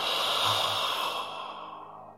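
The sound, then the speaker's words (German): A single long breath out through an open mouth during guided breathwork, airy and soft, swelling briefly then fading slowly over about two seconds, with no talking. “Und wir atmen nochmal ein, pure Energie. Und du lässt los, öffne deinen Mund.”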